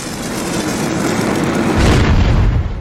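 Fiery burst of a Torch attack in a video game battle: a dense, roaring whoosh that holds steady, then swells louder with a deeper rumble partway through, with no voices.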